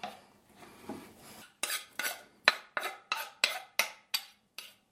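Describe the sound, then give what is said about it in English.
A knife chopping food: some soft scraping first, then nine sharp, evenly spaced chops, fairly loud and heard alone without voices. “This is very exciting to hear a knife chop stuff.”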